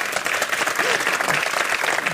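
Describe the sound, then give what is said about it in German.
Audience clapping, a dense, steady patter of many hands that stays fairly loud and even for the whole stretch. “Sie klatschen.”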